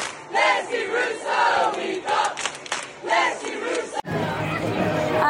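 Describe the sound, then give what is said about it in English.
Football crowd singing and chanting at a Borehamwood game, a dense mass of voices holding a continuous, loud chant that cuts off briefly near the end before the singing resumes. “We're going to go back to singing.”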